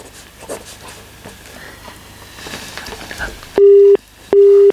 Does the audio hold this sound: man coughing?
no